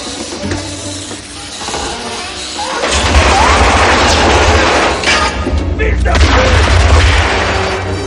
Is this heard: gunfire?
yes

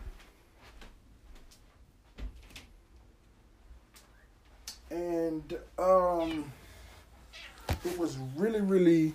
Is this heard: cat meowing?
yes

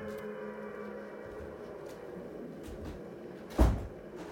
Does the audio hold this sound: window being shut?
yes

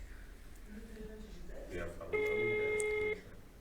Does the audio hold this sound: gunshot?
no

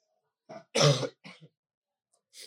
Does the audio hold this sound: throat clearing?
yes

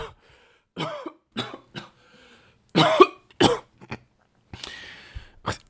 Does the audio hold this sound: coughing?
yes

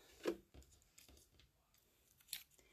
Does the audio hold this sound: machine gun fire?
no

